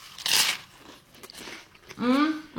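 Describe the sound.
A crisp, crunchy bite into a pressed sandwich filled with pesto, salami, mozzarella, sun-dried tomatoes, lettuce and butter, followed by quieter chewing, then a person begins speaking.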